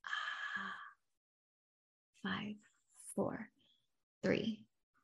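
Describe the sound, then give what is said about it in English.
A deep exhale through an open mouth during a relaxation breathing exercise: a long, breathy, sigh-like release at the start, then silence and a few short breathy bursts. “Inhale through your nose for 4. Hold for 7. Open mouth, relax, exhale,”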